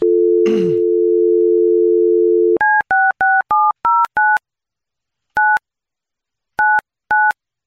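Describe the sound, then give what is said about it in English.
Telephone dialing: a steady dial tone sounds, then stops, and nine touch-tone keypresses follow. Six short beeps come in a quick run, then after a pause three more beeps are spaced out. “Let me dial her up.”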